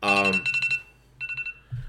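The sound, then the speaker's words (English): An alarm going off unexpectedly: short, high, bright beeps in two quick bursts of four, with a pause between them. “I'm sorry, that is my alarm. I have no idea why my alarm was set.”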